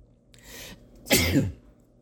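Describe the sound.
A single quiet sneeze, preceded by a soft breathy intake and then a short explosive burst of breath and voice, heard alone.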